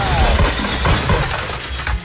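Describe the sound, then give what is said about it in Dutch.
A drinking glass is thrown and smashed to pieces, a loud crash followed by a sustained spray of tinkling shards, with another sharp impact at the very end. “wat kan ik voor je kapot gooien? Doe maar de glaas van Hubert Tan.”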